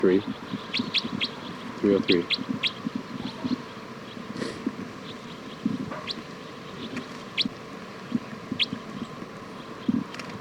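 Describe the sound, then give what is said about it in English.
Bird calls: many short, high chirps repeat irregularly throughout over a low, rumbling background. “This is bird”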